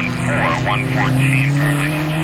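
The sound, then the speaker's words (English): Vintage race cars drone along the winding roads of Schenley Park during the Vintage Grand Prix, a loud, steady engine roar with a wavering high whine while a voice talks over it. “Right now, the serious fans of the Vintage Grand Prix are lined up along the winding roads in Schenley Park.”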